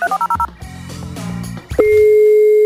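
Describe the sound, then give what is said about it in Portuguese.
Telephone keypad tones sound while a call is redialed: five quick, evenly spaced beeps, then a stretch of low rumbling noise, then a loud, steady tone that holds unbroken to the end. “Vamos ligar de novo aqui.”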